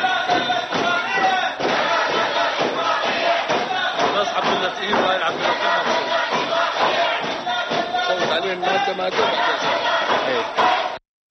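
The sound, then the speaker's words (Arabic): Opposition members of parliament chant slogans against an agreement during a parliamentary vote. Loud, continuous massed voices carry on with scattered thuds underneath, then cut off abruptly at the end. “وردد النواب المعارضون للاتفاقية هتافات ضد إقرارها خلال عملية التصويت.”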